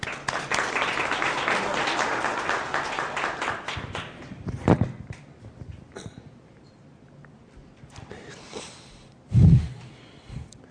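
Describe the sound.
Applause from an audience greets a speaker, loud and dense at first, then thinning and dying away within a few seconds, leaving scattered faint sounds.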